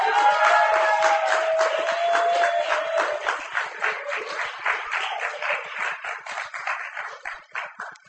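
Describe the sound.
Loud, dense audience applause for a poet at a poetry reading. It starts as a steady roar of clapping and thins over several seconds into looser, uneven bursts of hand claps.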